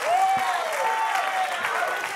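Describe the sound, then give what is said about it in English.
Church audience clapping hands in worship, a steady wash of clapping with a sustained, voice-like tone rising and falling above it. “Somebody clap your hands and shout, yes. Clap your hands and magnify the name of Jesus.”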